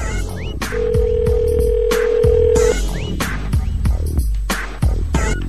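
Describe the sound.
Telephone tone while a call is being dialed: a steady, sustained beep lasting about two seconds rises above a busy, clattering background of short knocks and scrapes.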